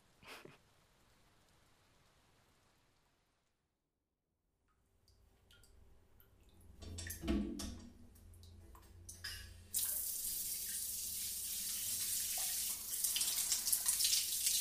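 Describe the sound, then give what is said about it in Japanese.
Hot water running from a shower: faint hiss and a few light clicks at first, a moment of near silence, then the flow builds into a loud, steady rushing spray that fills the final third. “お湯ちょうど良くなったかな。シャワー熱くない？”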